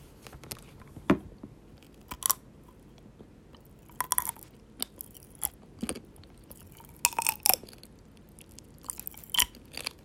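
Crunchy chewing on a square chocolate with colorful candy hidden inside. Many scattered bites and crackles sound at an uneven pace against a quiet background, with no talking.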